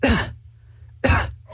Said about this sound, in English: And cough.